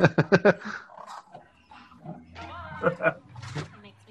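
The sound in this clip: A dog vocalizes in a quick run of four short, sharp yelps, followed by scattered rough growls and higher whining sounds, with people talking around it.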